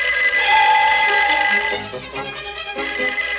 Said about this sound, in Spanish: De pronto el teléfono sonó.